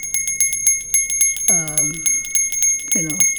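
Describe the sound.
Bell-like ringing in a rhythmic musical opening: a steady, high metallic tone with a rapid, even pulse of ticks throughout, while a voice speaks briefly twice.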